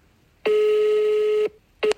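Telephone tone while a call is being placed: one steady buzzing tone lasting about a second, then a short pause and the start of a second brief burst.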